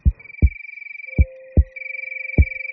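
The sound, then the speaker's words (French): Heartbeat thumps: deep, low lub-dub pairs at a slow, steady pace, two full beats and the start of a third, over a sustained high electronic tone and a quieter mid tone. “Écoute. Ça fait comme ça un cœur qui bat.”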